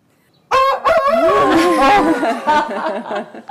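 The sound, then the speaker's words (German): A rooster crows once, a loud, drawn-out call of about three seconds that breaks off in a few places, heard alone after a near-silent start. “Ja, da denke ich natürlich sofort an den Hahn, der dreimal kräht. Mhm. Dieser hier hat nur einmal gekräht.”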